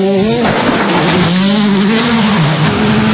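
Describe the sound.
A rally car engine roars steadily and loudly, its buzzing tone wavering up and down in pitch as the throttle shifts, with no voices.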